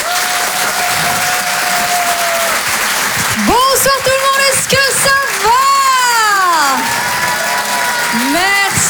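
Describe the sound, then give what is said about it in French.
An audience applauds and cheers as a comedian walks on stage at a French stand-up comedy show. Dense, loud clapping runs throughout, with whoops and voices rising above it in the middle and later parts. “Je vous demande de l'encourager très chaleureusement, s'il vous plaît, faites du bruit pour Nathalie Boitel.”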